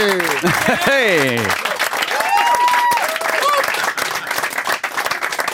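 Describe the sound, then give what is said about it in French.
Audience applause and cheering greet the host of a late-night television show, a broad clapping texture running throughout beneath whoops and a loud gliding voice early on, while a few tonal calls surface over the crowd. “C'est une des plus belles mains d'applaudissement. J'ai pas le droit de dire ça. C'est un des plus beaux gestes d'applaudissement que j'ai entendu depuis très longtemps.”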